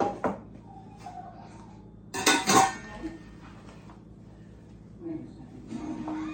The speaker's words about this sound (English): Where's that big old pot? That's not the one I want.